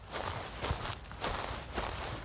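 Footsteps go steeply downhill from a vineyard to a meadow: a few muffled, scuffing steps at an uneven pace, moderately loud, with no talk.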